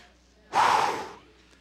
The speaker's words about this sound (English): Some of us need to take a breath right now. Take a deep breath.